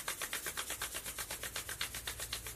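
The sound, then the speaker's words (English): Hands slick with a few drops of essential oil rub briskly together to build friction and warmth, a rapid run of many soft, swishing strokes in an even back-and-forth rhythm. “Rub, get some really good friction and heat going. My hands are usually cold in the morning, so this really helps.”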